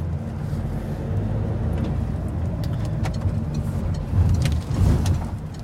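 A car driving: a steady, low engine rumble and road hum that runs throughout, with a couple of louder swells near the end and no talk over it.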